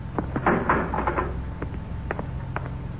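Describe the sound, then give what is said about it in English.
A spaceship's inner hatch opens with a short series of dry mechanical clicks and clattering knocks, fairly quiet and uneven in rhythm. “Stand by to open the inner hatch. I'll apply the repeller ray. Yes, sir. Open the hatch.”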